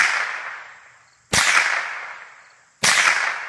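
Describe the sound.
Rifle shots from a 10-year-old boy's target practice: loud, sharp cracks about every one and a half seconds, each trailing off in a long ringing decay.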